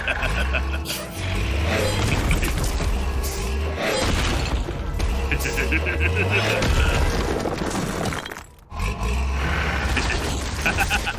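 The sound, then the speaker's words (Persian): A door being smashed through during a break-in, heard as loud, dense crashing and banging that runs almost without pause for about eleven seconds, dropping out briefly near the end before resuming. “یه فکر بهتر دارم، راهمونو با خورد کردن باز کنیم.”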